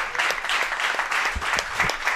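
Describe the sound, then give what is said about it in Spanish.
Audience applause for a group of young folk dancers from a municipal folklore school in Tardienta: dense, steady clapping that holds at an even, moderately loud level for the whole stretch, with no voices standing out. “Les damos otro aplauso”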